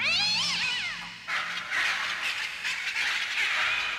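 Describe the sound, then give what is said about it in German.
Wild cat screeching and pet birds shrieking in a room. Shrill, sweeping cries at the start give way to a harsh, noisy, sustained screech that stays loud throughout, with no voices. “Als ich in der Diele unten ankam, drang aus Quentins Zimmer jämmerliches Vogelgeschrei und wildes Katzenkreischen.”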